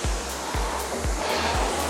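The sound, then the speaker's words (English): A rowing machine in use at moderate effort gives a loud, steady rushing whoosh that surges in a regular rhythm, with four strokes marked by low swelling pulses. “you should also be well aware that you're on the rowing machine putting in a little bit of effort”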